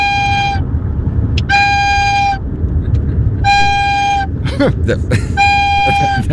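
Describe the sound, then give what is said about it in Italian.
Slow flute melody played by a caller down a phone line: four long, steady held notes at a similar pitch, separated by short pauses, over a constant noisy background. “E oggi vi volevo suonare una canzone col flauto. Ma sentiamo.”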